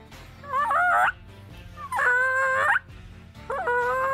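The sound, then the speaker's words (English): Gobbling turkey-style calls from a hunting game call blown by mouth, with tongue and jaw cutting off the air: three loud, warbling, harmonic bursts separated by short pauses. “This is what it sounds like with the call.”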